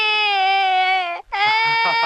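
A baby cries in two long, loud, high-pitched wails, steady and strongly tonal, broken by a short gasp for breath just past the middle, with no talk over them.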